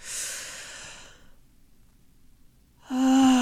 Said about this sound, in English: we're going to breathe in through our nose. We're going to say our mantra. Hold it for a beat, and we're going to exhale through our mouth, okay? In through the nose.